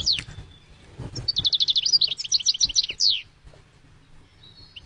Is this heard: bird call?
yes